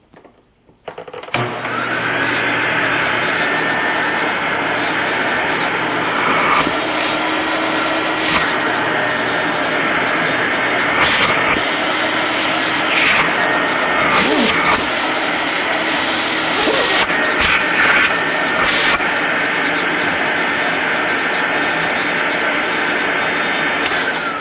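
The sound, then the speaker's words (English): An Electrolux Advantage vacuum cleaner motor switches on and runs as a steady, smooth, powerful drone that is not very high-pitched. It stays loud and even throughout, with a few faint clicks and bumps over it. “So here we go. This is the Electrolux Advantage.”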